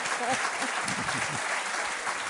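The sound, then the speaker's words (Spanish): Audience applause, dense and steady clapping across the whole clip at an even level, with a voice speaking underneath. “Aldo Linares, al que pido un aplauso también.”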